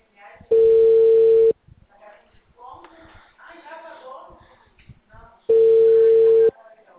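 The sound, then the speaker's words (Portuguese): A telephone call is placed: two long, steady, one-second ringing tones separated by a pause, with faint voices and shuffling in the gap between them. “eu vou fazer uma ligação de confirmação”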